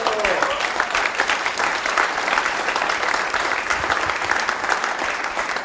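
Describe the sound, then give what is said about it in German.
Applause from an audience at a celebration in a traditional Austrian-style hotel: dense, steady clapping that runs throughout without a pause. “Das ist ein Applaus wert”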